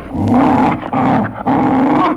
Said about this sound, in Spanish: el perro del repartidor, que había estado olfateando al posadero, en cuanto vio al hombre, se agitó nervioso. ¿Qué diablos le pasa a tu perro?